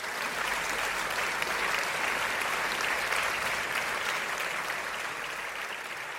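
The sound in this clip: A studio audience applauds steadily to welcome a guest onto a talk show, a dense, even wash of clapping that holds at one level throughout, with no voices.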